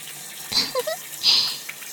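Shower water splashes in two short, hissing bursts separated by quieter gaps, fairly faint overall.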